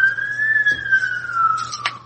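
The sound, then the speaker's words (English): An ambulance siren passing by: one loud sustained wailing tone that rises slightly, then slowly drops in pitch, over a low steady hum. “I just let the ambulance go by.”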